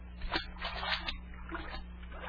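A splash of someone falling into a pool of salt water made of tears, heard as a few bursts of sloshing, spattering water with no voices.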